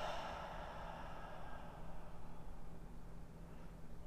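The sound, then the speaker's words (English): Soft, airy breathing in a quick guided inhale-and-exhale exercise, a faint steady hiss of breath that is strongest at the start and eases off, with no talk. “Inhale. Exhale. Inhale. Exhale.”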